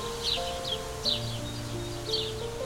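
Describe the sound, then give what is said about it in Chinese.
A flock of bluebirds chirps while wind moves through trees: a few short, bright chirps rise over a soft, steady rustle, with faint sustained tones underneath, all quiet. “风吹过树的声音，是那群青鸟叽叽喳喳的声音，”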